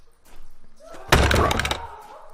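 A cell door is smashed into: one sharp, heavy slam, then a brief rattling clatter that dies away within about a second.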